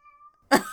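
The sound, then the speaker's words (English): A cat lets out one short, loud meow after near silence, the cry bright and slightly strained as it trails off. “Shepherd's crying. I don't know why. I yearn. Do you yearn, Shep? I fed you.”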